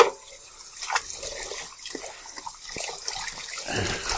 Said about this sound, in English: Let me wash off my hands here. I'm just going to let it sit there for a minute or two while I wash off my hands and wash out.